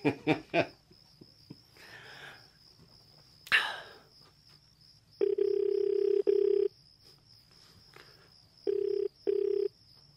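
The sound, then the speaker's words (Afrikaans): A telephone call to a friend in Houston, with a few clicks and rustles first, then a low steady ringing tone in two spells of short double bursts, clear and without voices. “Ek bel net gou 'n ou vriend in Houston.”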